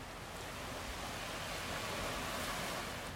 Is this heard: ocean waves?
yes